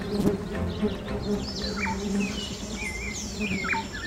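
Insects buzz around a blooming flower in a steady, constant drone, with scattered high, thin chirps over the hum.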